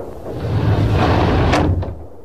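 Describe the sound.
A door opens suddenly in a radio drama with a swelling, rumbling sweep that ends in two sharp clacks.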